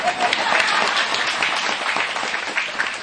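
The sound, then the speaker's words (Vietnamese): Audience applause at a Buddhist dharma talk: dense, steady clapping from many hands that holds at an even, loud level throughout without a break. “Vỗ tay đi.”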